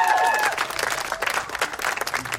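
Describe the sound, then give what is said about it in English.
Audience applause at a live event, with a dense, continuous patter of many hands clapping that stays steady and fairly loud throughout. “let's give a round of applause for Emily Scarrett.”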